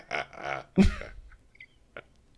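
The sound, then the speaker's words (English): A person imitates a sneeze with a voiced, drawn-in lead-up and then a sharp, breathy burst, followed by a couple of faint short sounds in quiet. “I've got the small business Saturday sniffles. Achoo. Achoo.”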